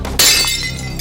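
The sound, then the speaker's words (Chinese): A glass bottle dropped by a shopkeeper shatters: one sharp, loud crash with a bright burst of breaking glass that rings briefly and decays over a low, steady background hum. “你这老板怎么当的呀？怎么连个瓶子都拿不住啊？”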